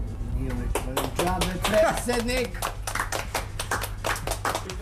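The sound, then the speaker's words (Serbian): An audience at a Serbian club applauds the club president's speech. Many hands clap in quick, irregular bursts, with voices talking over the clapping at first. “Nije uvežbavan ovaj aplauz, ali stvarno, na ovako objašnjenje, šta čovek da doda?”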